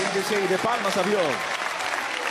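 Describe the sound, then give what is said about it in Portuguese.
A church audience claps their hands in praise, a steady patter of applause, while a voice speaks over the first part. “Pode se assentar e louvar o nome de Jesus com palmas e glória a Deus.”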